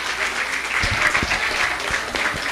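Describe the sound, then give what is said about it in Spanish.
Steady applause from an audience at a community women's radio event, dense continuous clapping at moderate loudness with a few low thumps, no voices over it. “Pues sí, un fuerte aplauso para Mari Carmen de la Borbolla, vecina de Juchitepec”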